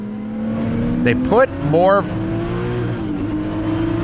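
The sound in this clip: A race car engine in the video game Transcendental Racing gives a steady, droning whine. It runs throughout, with a brief burst of other sound near the middle.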